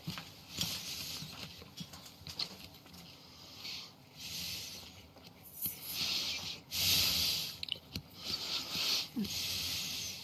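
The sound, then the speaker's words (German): A man breathes heavily, like someone who has just run a marathon. Many quiet, hissing inhales and exhales mix with rough nasal snorts in an irregular rhythm. “Kannst du nicht einen einzigen normalen Atemzug machen? Geht das nicht? Der schnauft wie jemand, der gerade Marathon gelaufen ist.”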